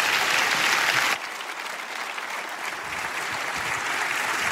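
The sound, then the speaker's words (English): Audience applause welcoming a speaker at Buckhead Church: dense, steady clapping throughout, easing slightly in loudness after the first second and then holding evenly. “So would you please give a big Buckhead Church welcome to my friend and yours, Danielle Strickland.”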